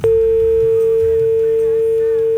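Telephone tone after a call drops, a single loud, steady, mid-pitched electronic tone that sounds unbroken from start to end.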